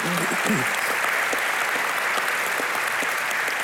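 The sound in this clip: A church audience applauds to welcome its executive pastor onto the stage with steady, dense clapping at even volume, while a brief voice is heard at the very start.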